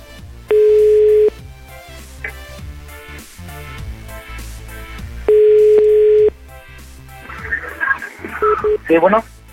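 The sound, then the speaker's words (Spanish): Ringback tone of an outgoing telephone call. Two steady, level-pitched tone bursts about a second long, spaced several seconds apart, sit over a busy mix of other sounds. “Órale, ya está llamando, ella está llamando.”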